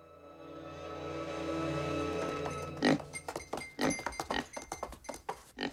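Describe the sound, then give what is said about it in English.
A pig trots into a bedroom as the door opens: a long, sustained creaking tone gives way to a quick, uneven series of hoof clatters and soft thumps on the floor. “The door opens and a pig trots in.”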